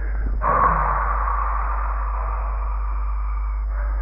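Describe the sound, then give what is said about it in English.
A long, steady breath exhaled through the open mouth during a guided meditation. It is a soft, breathy rush that holds for about three seconds, heard alone with no talk. “And then with open eyes, open mouth, open everything, exhaling through the mouth.”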